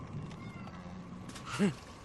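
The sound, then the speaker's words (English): A single upset cat meow cuts through low background noise: one short, strained harmonic cry near the end, louder than everything around it. “My cat is very upset. I wondered what that sound was.”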